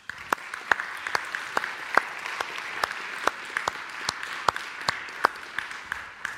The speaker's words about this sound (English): Can we give him a hand?